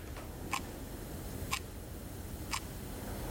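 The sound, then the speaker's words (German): Three faint, crisp ticks from a clock, evenly spaced about one second apart, over a quiet background hiss. “You mentioned in Ghost Stories this clock. Yes. That is ticking away the time. It's true. It makes a little sound.”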